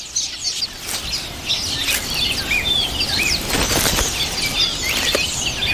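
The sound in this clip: A female black-faced bird flutters its wings as it flies back to its nest with food for its chicks. Quick bursts of flapping mix with many high, twittering chirps throughout.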